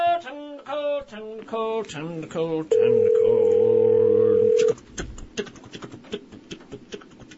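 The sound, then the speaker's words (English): A steady telephone dial tone hums unbroken for about two seconds while a call is being placed. Voices come before and after it. “Time to call Emily, get on the phone.”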